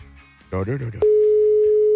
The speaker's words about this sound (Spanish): Ahí estamos ya. Estaba marcando,